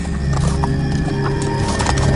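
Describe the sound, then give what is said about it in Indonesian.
Horse hooves clip-clop as a horse-drawn carriage moves along, a steady run of sharp hoof strikes over a continuous rolling background with no talking. “aku sangat dekat dengan kereta kuda itu.”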